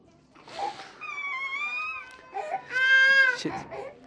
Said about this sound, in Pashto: ویر، ژړا او انګولا.